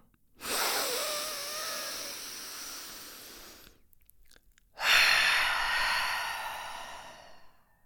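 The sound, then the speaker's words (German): Two long, deep breaths, each a soft airy rush that swells and slowly fades, taken in and out during a guided breathing exercise, separated by a short quiet gap. “Und als erstes nimm drei ganz tiefe Ein- und Ausatmung.”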